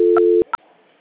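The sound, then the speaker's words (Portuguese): A telephone line tone while a call is being transferred: a steady, loud low hum that stops abruptly, with two short, higher electronic beeps, one over the tone and one just after it, then quiet line noise. “Aí aguarda só um instantinho na linha que eu já estou transferindo a ligação, tá bom?”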